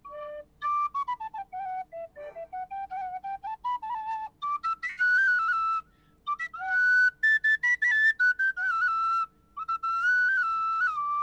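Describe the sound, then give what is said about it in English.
A regular Irish tin whistle plays a lively solo melody of many bright, high notes in short phrases, with quick ornaments, small slides and brief breaks between phrases. “So when it's the regular Irish whistle, it sounds like this.”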